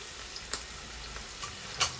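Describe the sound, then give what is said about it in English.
Albacore tuna frying in its own marinade with a little olive oil gives a steady, hissing sizzle, broken by a few sharp crackling pops at irregular intervals. “It's currently frying in its own marinade, plus a little bit of olive oil. It really fries quickly, this albacore tuna”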